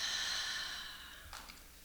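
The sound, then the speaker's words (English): A deep breath in and slow exhale taken together by a group during a guided moment of reflection; a long, soft breathy hiss fades gradually over about a second, followed by a brief breathy puff. “We'll take a deep breath together, and then we'll let it out slowly. So in and out.”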